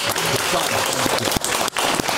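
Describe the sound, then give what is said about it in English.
Audience applause as a crowd claps for a contestant in a live vote, a dense, steady clatter of clapping that fills the whole clip, with voices mixed in. “Sunny Green, clap for Sunny Green.”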